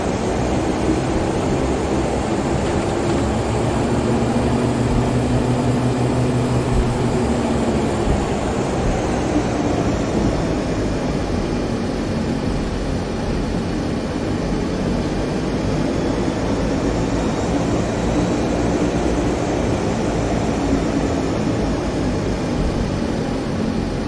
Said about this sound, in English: see, you should not be hearing that sound when taxiing. It's throttle sounds are really messed up with this aircraft